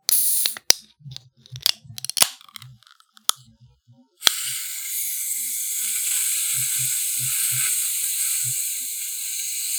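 A Faygo soda bottle is cracked open: a few sharp ratcheting clicks from the cap give way to a sudden release and a steady, bright fizzing hiss that lasts to the end.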